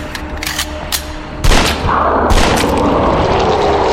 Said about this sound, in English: Firing bullets is not the same as confronting it.